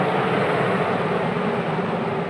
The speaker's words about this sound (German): Ist ja fast wie beim Flieger. Jawohl, das ist die Luftgebläse für die Elektromotoren zu kühlen.